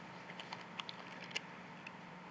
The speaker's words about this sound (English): if you'll take and peel back the packaging on the top and just hold on to the bread for just a moment